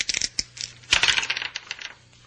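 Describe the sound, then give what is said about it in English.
A pair of dice is rolled, a quick cluster of light clicks followed by a longer burst of rattling that thins out as one die keeps spinning, faint and dry. “One of the dice turns up a 6 while the other still spins.”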